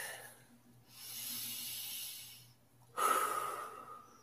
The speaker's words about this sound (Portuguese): Mão na cintura. Respira fundo.